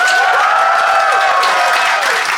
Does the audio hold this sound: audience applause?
yes